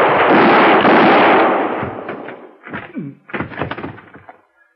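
Gunshots ring out in a Western shootout: a long, loud roaring blast with a lingering tail, then a few sharper, quieter shots that trail off.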